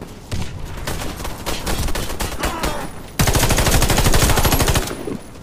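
Rapid automatic gunfire rattles in a video game firefight, coming in fast bursts. A louder, denser stretch of shots starts partway through and then cuts off near the end.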